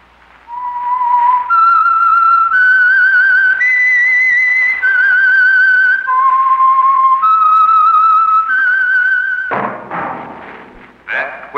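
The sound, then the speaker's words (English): A lone whistler performs the signature theme of The Whistler, a slow, eerie tune of long, pure sustained notes that step up and down in pitch, followed by a few brief loud knocking thuds. “Is your signal for the Signal Oil Program, The Whistler.”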